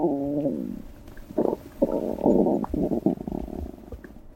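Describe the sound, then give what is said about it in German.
Stomach and digestive tract gurgling: a tonal rumbling note at the start, then several irregular bursts of low, bubbly gurgles separated by short quiet gaps, with no other sound. “Unser Innenleben ist ganz schön laut, wenn man genau hinhört. Es gluckst und gurgelt. Selbst wenn wir ruhen, ist das Verdauungssystem ständig am Arbeiten.”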